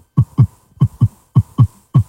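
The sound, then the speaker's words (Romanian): A heartbeat thumps in a regular lub-dub rhythm: three low, muffled double beats and the start of a fourth, loud and alone. “Știi că inima bate.”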